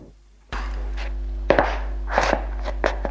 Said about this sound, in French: Elle se lève et marche dans la pièce.